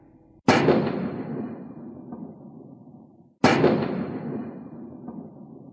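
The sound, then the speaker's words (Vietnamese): Two grenade explosions in a forest, each a sudden, very loud blast trailing off into a long fading roar, roughly three seconds apart, with no voices. “Tiếng nổ nghe chát chúa lại vang động khắp cả khu rừng. Một vầng lửa khói bốc lên, tiếp theo là những tiếng nổ khác cùng hòa nhập.”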